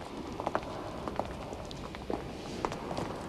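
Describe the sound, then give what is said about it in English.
Footsteps of people walking through a pillared hall, a faint, steady series of soft steps over a low background hiss. “They walk towards a pillared hall, at one end of which stands Il Duce behind a large desk.”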